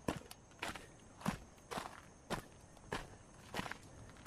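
Footsteps trudge along a jungle path toward the ocean, a slow, regular series of heavy crunching steps with no talking.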